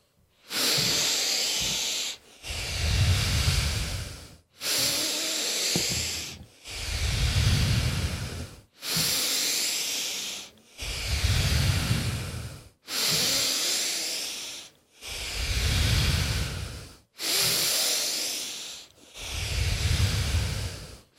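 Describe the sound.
Deep, airy breaths during a breathwork exercise with spine flexing and extending. Long inhales and exhales alternate steadily, each rush of air lasting about two seconds and separated by short pauses, with no talk.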